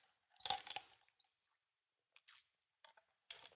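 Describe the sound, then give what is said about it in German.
A person takes a quick sip of a drink: faint wet slurping and swallowing clicks in a few short bursts separated by silence, with no talking. “Ich trinke jetzt mal ganz kurz, vielleicht ändert sich das dann”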